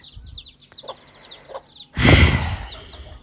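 A hen clucks with her chicks following her: many quick, high peeps in the first half, then a louder, rougher burst of sound.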